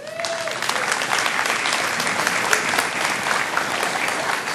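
An audience gives loud, dense applause as two women are welcomed onto a stage, with many hands clapping in a continuous, even roar that holds steady for the whole stretch.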